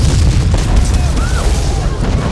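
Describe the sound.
A temple blowing up in a thundering column of flame, with burning debris thrown outward, gives a loud, continuous, deep rumbling roar that holds steady for the whole stretch without clear separate blasts.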